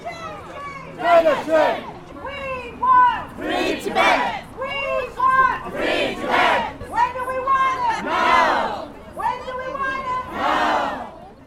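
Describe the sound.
Protesters at a Tibet Uprising Day rally outside the Chinese consulate on Granville Street in Vancouver chant loudly in unison. Many rhythmic shouted bursts repeat in a steady call-and-response pattern.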